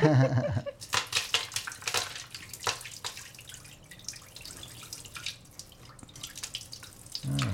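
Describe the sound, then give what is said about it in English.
Water drains from Brussels sprouts leaves held over a bowl by hand. Splashy, spattering bursts fill the first few seconds, then thin to a quieter trickle and drips, with a short voice at the start and end. “you can drain the water of this leaves of Brussels sprouts. Okay, just with my hands? Yeah, just with your hands. Just put one end over the bowl and voila.”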